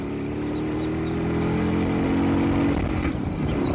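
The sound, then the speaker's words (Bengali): Motorcycle engine roaring as the bike surges off and speeds away, a steady loud low growl with layered harmonics that swells slightly in the middle before holding on. “গর্জন করে একটা ধাক্কা দিয়ে bike ছুটতে শুরু করলো”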